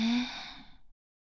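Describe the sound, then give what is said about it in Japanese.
One deep breath drawn in during a calming exercise: a short breathy rush with a brief voiced tone at the start, fading out in under a second before silence. “焦らない。深呼吸よ。吸って、”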